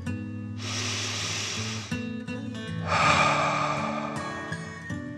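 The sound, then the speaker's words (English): A deep breath in and then out through the mouth during a relaxation exercise: two long, airy rushes, each over a second, separated by a short pause, over soft sustained background tones. “pretending water is blowing out of your mouth or nose. Ready? Okay. Deep breath in and out.”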